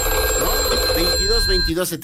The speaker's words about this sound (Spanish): ahí tenemos la señal, ya tenemos llamada